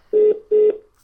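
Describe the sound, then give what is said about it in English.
A telephone ringing tone plays while the caller waits on hold to be put through. It comes as two short, steady, mid-pitched beeps in a double pulse, clear and alone. “sat listening to beep beep while being on hold waiting to be put through”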